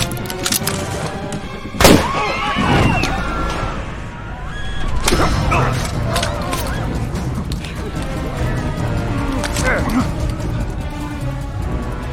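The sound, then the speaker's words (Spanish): Gunshots fired aboard a plane in flight, just outside the cockpit: a few sharp, loud bangs stand out amid continuous noisy commotion and mechanical rumble. “hay disparos afuera de la cabina de mando”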